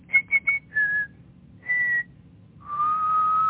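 Whistled imitation of an oriole's song: three quick high notes, then a longer, slightly falling tone, another held note after a short pause, and a long final note pitched lower that rises gently. No voices.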